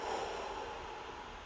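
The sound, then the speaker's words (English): Deep breathing during a guided breathing exercise, a faint, steady, airy rush of breath lasting the whole moment without clear breaks. “Inhale. Exhale.”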